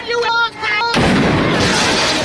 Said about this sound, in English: And when the shotgun accidentally went off,